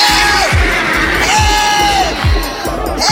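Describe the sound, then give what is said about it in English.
Loud shouting and yelling voices, with drawn-out wails that bend in pitch, over a regular series of low thuds. The sound is dense and raucous for the whole stretch. “I think you could do a little bit better with the screaming and shouting.”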